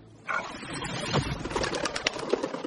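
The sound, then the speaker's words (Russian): Birds scatter into flight as a she-wolf attacks them: a dense, continuous flurry of wing flaps and bird calls with many short bursts. It is moderately loud, with no talk. “Неподалеку стоит волчица. Нападает на птиц, птицы разлетаются.”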